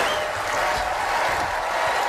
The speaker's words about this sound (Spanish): Y esta es la ovación que se ha llevado Michael J. Fox.